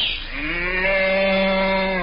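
A cow moos once in a long, drawn-out low call. The tone rises slightly at the onset, then holds steady and loud on its own for about two seconds.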